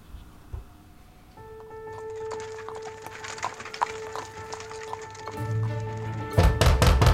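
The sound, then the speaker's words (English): Insistent knocking on a wooden front door, a quick cluster of loud, hard thuds near the end, after a stretch of quiet, eerie music with sustained tones. “It was late December in 1892, whilst my poor Mary slumbered upstairs, when I heard an insistent rapping upon our front door.”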